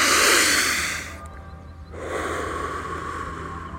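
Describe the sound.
A deep breath is drawn in through the nose as a long, loud, airy inhale. After a short pause a second, softer breath sound follows and trails off steadily.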